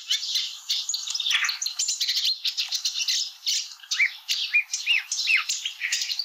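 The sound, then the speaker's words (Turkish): A Blyth's reed warbler sings a continuous, chattering song of varied high chirps and twittering notes. Slurred whistled phrases stand out in the second half. “Şimdi çalıkamışçını dinleyelim.”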